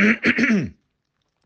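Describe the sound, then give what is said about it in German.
A man clears his throat in the middle of speaking: a short, loud, voiced rasp of two or three quick guttural pulses, followed by silence. “warte, mich muss ich mal räuspern.”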